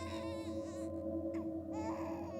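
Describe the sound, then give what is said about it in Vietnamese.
A child crying late at night, a faint, high, wavering wail in two short bursts over a steady low hum. “Tiếng khóc giữa đêm khuya xoáy vào màng nhĩ. Thằng này hốt hoảng. Ô hay, sao đêm rồi mà con cái nhà nào nó khóc nghe ghê thế nhỉ?”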